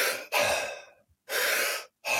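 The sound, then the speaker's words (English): A person breathing in and then letting the breath out passively and relaxed: loud, airy breath sounds in a few bursts separated by short silent gaps. “if I breathe in and then relax on the exhale”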